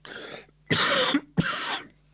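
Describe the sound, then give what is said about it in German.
Three harsh coughs in quick succession from one person, each a short rasping burst with brief gaps between, heard alone without talk. “So, jetzt kommt der archaische Huste. Entschuldigung.”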